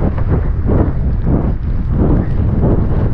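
Wind buffets the microphone during an outdoor running workout on town streets, a loud, low, rumbling roar that surges in uneven gusts throughout, with no voices.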